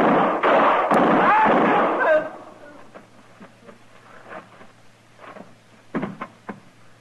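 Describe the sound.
Gunshots in a western drama shootout: a loud, dense burst of fire over about two seconds with a shouting voice mixed in, then quieter rumble and a few sharp cracks near the end.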